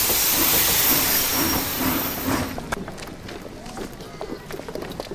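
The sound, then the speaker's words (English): A train passes a railway crossing with a loud, broad rushing hiss for about half the time. The sound then drops to a quieter rumble with scattered clattering. “he waits at a railway crossing as the train passes.”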